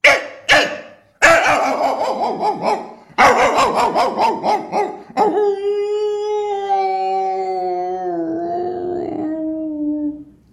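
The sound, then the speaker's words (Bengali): A dog barks on seeing another dog as it roams the neighbourhood: a few sharp barks, then a rapid run of yapping, then a long wavering howl that drops lower in pitch near the end. “এবারে সে তো এ পাড়ায় ও পাড়ায় ঘুরে বেড়াচ্ছে, তখন সে আরেকটা কুকুরকে দেখলে পারে সে কীভাবে চিৎকার করে”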